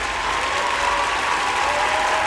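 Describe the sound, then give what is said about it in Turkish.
Dense audience applause fills the whole stretch, steady and loud from start to finish with no break or swell, as a crowd claps to send off a guest at the end of a call. “Çok büyük alkışlarla gönderiyorum Sezer'i. Çok büyük alkışlarla valla.”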